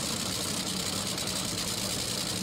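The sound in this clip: A race car engine idles at a racetrack after its idle adjustment screw is turned, giving a steady, dense, even rumble with no clear rise or fall.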